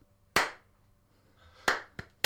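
Two people clapping in a studio make four sharp, isolated claps. One clap comes alone, followed after a pause by three more in quick, uneven succession, with quiet between them.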